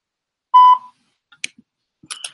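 A voicemail beep on a phone call: a single short electronic tone with a ringing, slightly buzzy timbre, followed by a few faint, scattered clicks and small noises.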